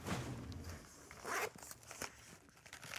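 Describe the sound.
A small toiletry bag being unzipped: one quick, rasping zipper pull near the middle, faint and close, with light handling rustles around it.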